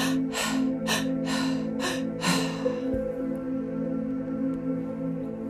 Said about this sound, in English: We're going to go all through the mouth in a circular motion. In, out, in, out, and it sounds like this.